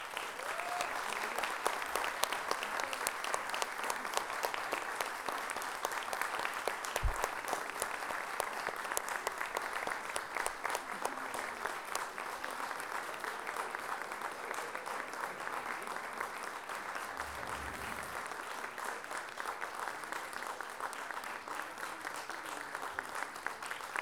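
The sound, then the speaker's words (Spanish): Audience applause for a live band: dense, steady clapping from a crowd that runs evenly throughout, with a few low thumps beneath it. “quiero que le den el más cariñoso y fuerte los aplausos que puedan, a esta agrupación que todos admiramos y queremos.”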